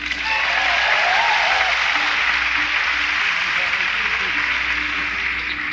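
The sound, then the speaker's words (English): Steady, loud audience applause welcomes a bluegrass band member from North Carolina as he is introduced on stage. The clapping holds evenly throughout, with faint talking beneath it. “Let's make him welcome. While you say, give him a hand.”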